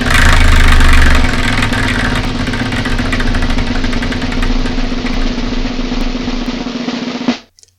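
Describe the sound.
A prize wheel called the Wheel of Manga spins with a loud, rapid, continuous rattle of clicks that runs for several seconds and then stops abruptly near the end.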